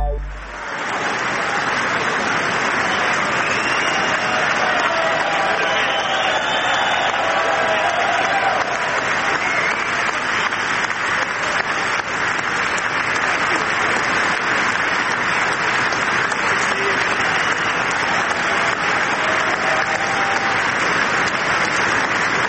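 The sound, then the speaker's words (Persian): Sustained, loud applause from an audience waiting for President Trump's speech, a dense, steady wash of clapping that holds at an even level for the whole stretch. “در میان تشویق حضار پرزیدنت ترامپ تا لحظات دیگر سخنرانی خودشون رو آغاز خواهند کرد”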